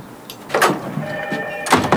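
A door opening in the Teatr Studio building inside Warsaw's Palace of Culture: a few soft knocks and rustles, with a brief thin squeal in the middle.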